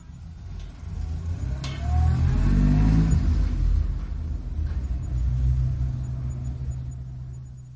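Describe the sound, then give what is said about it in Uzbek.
A light car speeds out of a yard, its engine swelling into a loud revving rumble that peaks and eases, then surges again before settling into a lower drone. “Tegaxyuning hovlisidan ustochi yengil mashina o'q deb uchib chiqdi-yu, Smolvud Villas tomon yo'l oldi”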